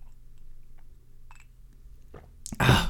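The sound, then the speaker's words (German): A sip of coffee taken as one short, loud slurp near the end, after a few faint handling noises in near silence. “ebenso wie Kaffee, von dem ich mir noch einen Schluck genehmigen werde”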